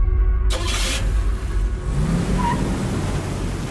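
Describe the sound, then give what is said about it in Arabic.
Car engine revving as the car is driven fast, a loud, steady roaring rumble throughout, with a brief sharper hiss near the start. “الله يهديك، تسوق وكأنك في حلبة سباق”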